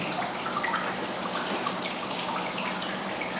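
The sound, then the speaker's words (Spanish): Soft, even murmur of flowing water, a steady hiss with faint gurgles that carries on alone and unchanged. “en el susurro de las aguas, escúchalas”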